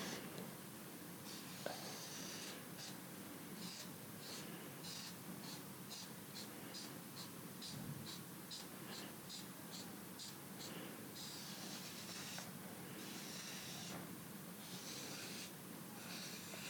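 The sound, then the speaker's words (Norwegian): Quick drawing strokes on paper, a faint run of rapid, rhythmic scratching over a steady background hiss. “Tegner litt sånn raskt på det nå.”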